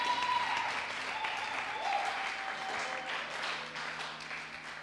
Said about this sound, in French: Vas-y, acclame le Seigneur, tu veux, fais-le.